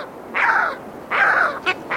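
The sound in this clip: Harsh, raspy calls of a skua: a few crow-like cries, the first two drawn out and the later ones short and clipped, fairly loud over a low, steady background hiss.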